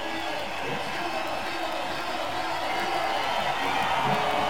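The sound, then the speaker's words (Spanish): A stadium crowd at the Centenario makes noise to distract a player, a steady broad roar that stays at an even, moderate level throughout with no single cheer standing out. “Oigan al estadio aquí en el Centenario. El público tratando de distraer las intenciones de Radamés Liz.”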